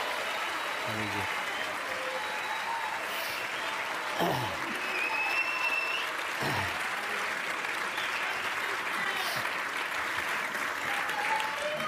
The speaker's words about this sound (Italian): Bravi, bravi, era l'ovazione giusta, era l'ovazione che ci voleva.